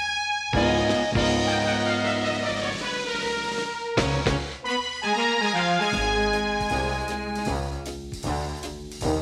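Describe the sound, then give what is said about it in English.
An old big band style swing number plays loudly with no vocals. Full ensemble chords alternate with sharp, punchy accents and brief breaks. “Either way, it's an old big band style number that sounds like this.”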